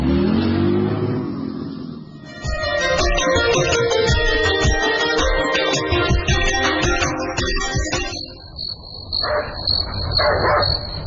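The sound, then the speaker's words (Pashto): A dog barks at night: a couple of short barks come near the end, after a long stretch of roaring, engine-like noise, with a steady high insect-like tone underneath. “نه پوهیږم چې دا سپی ولې غاپي”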